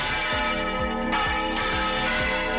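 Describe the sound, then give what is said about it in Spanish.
Church bells ring from the bell tower of a church built in 1224 in La Rioja, with a steady series of deep strikes whose long, layered overtones overlap and hum together throughout, with no voices. “Este que escuchas es el sonido del campanario del propio templo y que lleva sonando desde el año 1224.”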